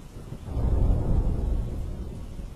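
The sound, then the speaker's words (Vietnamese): A rumble of thunder during a rainstorm swells into a low, heavy roll, then slowly fades, with no voices. “Tiếng sét xé lòng một lần nữa lại vang lên”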